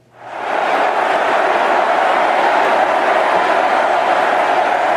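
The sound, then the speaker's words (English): Crowd noise fills a big political convention hall awaiting a Bernie Sanders speech: a dense, steady roar of many voices swells in at the start and then holds loud and unbroken. “That is the sound of the big hall we're sitting right next to right now.”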